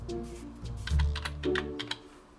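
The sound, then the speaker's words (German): A quick run of keystrokes on a computer keyboard as a search term, 'Reinigung', is typed in, with sharp, uneven clicks and taps at a brisk, irregular pace. “Ich kann auch direkt hier oben eingeben, was ich dann suche. Zum Beispiel mit Suchergebnis, zum Beispiel, sagen wir mal jetzt, Reinigung.”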